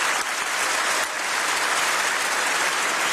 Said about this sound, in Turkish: Kanada Başbakanı Mark Carney de genel kurul salonunda von der Leyen'i dinleyenler arasındaydı. Carney dakikalarca ayakta alkışlandı.